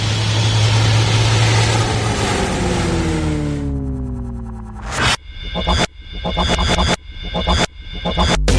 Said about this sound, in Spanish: Estamos a punto de despegar. Abrochen su cinturón.